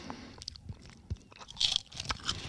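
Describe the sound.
Someone chews a thin, crispy fish-flavoured snack, making many irregular, fairly faint crunches and crackles in quick succession.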